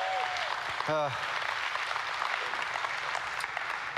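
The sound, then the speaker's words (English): Congregation at Austin Christian Fellowship applauding the worship team: a brief voice near the start, then dense, steady clapping that continues throughout. “Can we thank our worship team for doing us...”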